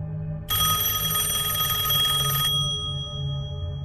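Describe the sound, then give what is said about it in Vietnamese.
A telephone rings late at night: one continuous bright, shrill ring lasting about two seconds, heard alone over a low steady hum. “Tôi bị tiếng chuông điện thoại làm cho giật bắn mình.”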